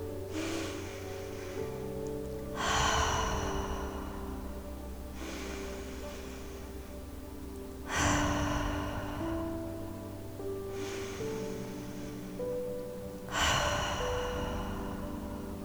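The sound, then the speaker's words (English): Slow, deep cleansing breaths during a guided meditation: a few long, airy inhales and exhales that swell and fade at an even, unhurried pace over a soft, sustained music bed, with no talking. “Let's start by taking some cleansing breaths together.”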